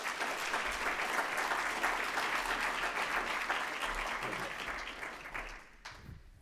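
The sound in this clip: Morning applause welcomes a speaker to the platform: many hands clap in a dense, steady roar that holds, then tapers off and thins out near the end.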